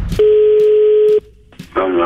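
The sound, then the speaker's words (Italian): A telephone line gives a steady mid-pitched dial tone for about a second. A short, near-silent gap with faint clicks follows, then a busier tonal sound at the end as the number is dialed. “Chiamiamo il signor Sergio e gli facciamo credere di voler risolvere il suo problemino telefonico.”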